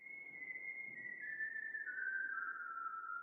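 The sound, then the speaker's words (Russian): A person whistles a sad, pigeon-like song: one clear, sustained tone that slides gradually lower in pitch over about three seconds, heard alone without voices. “увидела за узким окном Этти, насвистывающую печальную голубиную песню”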